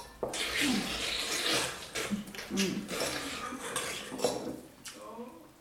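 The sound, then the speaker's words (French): Dishes and cutlery clatter as a plate is set down on a table, a dense, continuous rattle with brief louder knocks, heard beneath faint voices. “La mère pose l'assiette et retourne en cuisine.”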